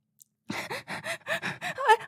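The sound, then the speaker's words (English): Shaky, voiced gasping breaths from a frightened person held at gunpoint, coming as a rapid, uneven series after a brief faint catch of breath, each gasp short and tremulous. “Okay, I'll take a deep breath.”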